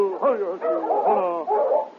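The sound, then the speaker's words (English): Whining and whimpering from a large sled dog at the door of an old prospector's cabin, a few wavering high-pitched cries in close succession, with short pauses between them. “the great dog turned toward the cabin and sniffed at the door.”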